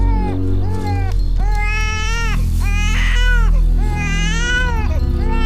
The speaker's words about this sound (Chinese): 你的孩子，你的孩子你不喂，让他哭成这样。